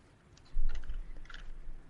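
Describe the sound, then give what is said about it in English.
Soft plastic clicking and ratcheting of a Rubik's Cube being twisted, a few quick turns in close succession, fairly faint and alone. “So I notice you're playing with a Rubik's Cube. Yep. Is that? Can you hear it? I'm sorry. I traded my Slinky for a Rubik's Cube.”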